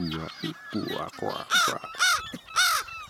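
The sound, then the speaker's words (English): An American crow makes strange, varied vocalizations: a run of odd, buzzy, croaking notes with low rich tones, then three loud, arching caws separated by brief pauses. “Very weird vocalizations from this American crow. Give some normal calls in the middle and then this kind of”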